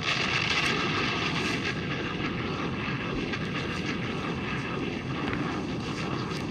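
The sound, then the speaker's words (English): A bomb-drop sound effect delivered as a dense, loud roar and rumble that holds steady for several seconds without a break, with no voices over it. “Let us drop a bomb for that.”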